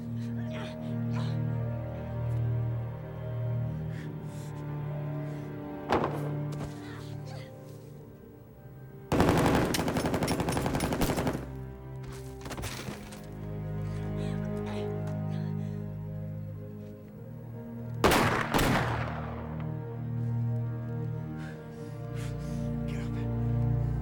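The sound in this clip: Gunfire from a weapon in a crime film scene comes in a few loud, rattling rapid-fire bursts. The bursts cut sharply through a sustained low tonal backdrop, and a brief crack is heard between them.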